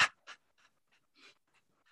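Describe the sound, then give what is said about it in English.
A person panting to imitate a dog during a guided exercise, making many short, breathy puffs in quick rhythm, faint and with no talk. “And now you're going to pant like a dog.”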